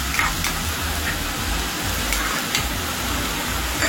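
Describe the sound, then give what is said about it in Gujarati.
Finely chopped tomatoes and garlic-ginger paste go into a hot frying pan, giving a steady, dense sizzle. Occasional brief clicks, like stirring, sound over the continuous hiss. “ત્યારબાદ આપણે ઝીણા સમારેલા બે ટામેટા નાખીશું, એક થી દોઢ ચમચા લસણ અને આદુની પેસ્ટ નાખીશું.”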